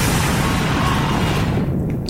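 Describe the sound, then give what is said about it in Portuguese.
An explosion sound effect played on the radio: a dense, loud roar of broad noise that holds steady for about two seconds, its upper hiss thinning out at the end. “Informação no monitor. Vou mandar pro ar. Explode!”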